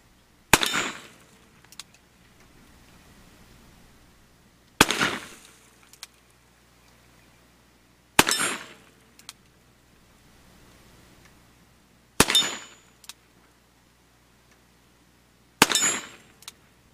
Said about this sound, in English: I'm going to shoot it right-handed today, just for your convenience. We're going to shoot this single action.